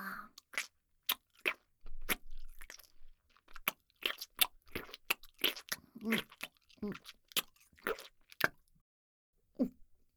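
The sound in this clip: Chewing and eating food: many sharp, crunchy bites and wet mouth sounds come in an irregular rhythm, fairly quiet throughout, with brief pauses between bursts.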